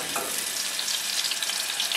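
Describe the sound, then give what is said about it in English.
Sliced potatoes frying in butter in a pan, giving a steady, dense sizzle of fine crackles and spits that stays even throughout, with no talk. “Like I said, I prefer potatoes, and I slice them lengthwise because they'll cover the pan better.”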